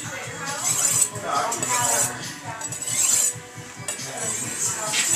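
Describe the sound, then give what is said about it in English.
Kitchen knife blade being honed, a series of bright metallic swipes repeating at a moderate, fairly even pace. “then you just have to hone it. Honing is just me straightening the blade.”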